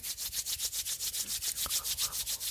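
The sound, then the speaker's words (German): Palms rubbed briskly together to warm them: many fast, even back-and-forth strokes with a bright, hissy swish, steady throughout and without any talk. “beginnst dann nochmal deine Hände warm zu reiben”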